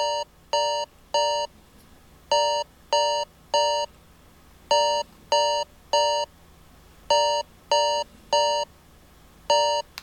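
Osmium alarm tone on a BlindShell Classic phone: bright, high electronic beeps in repeated groups of three, evenly spaced with short pauses between groups, loud and alone.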